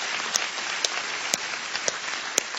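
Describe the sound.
Audience applause during a church service: a steady, dense wash of clapping throughout, with a few sharper single claps standing out.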